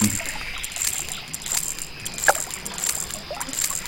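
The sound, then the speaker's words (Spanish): Water splashes in a fishing video game: a steady, low watery hiss with a few light, brief splashes and clicks scattered through it. No voices. “Cuando suene, va a empezar a sonar un sonido de agua saltando.”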